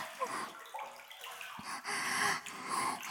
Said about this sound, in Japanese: もっとお湯わしゃわしゃさせて奥までツンってしてください。